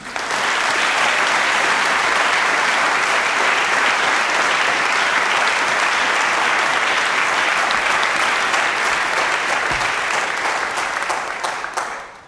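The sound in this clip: An audience applauds to welcome a speaker to the podium, a dense, steady wash of clapping held at full strength for about twelve seconds before tapering off.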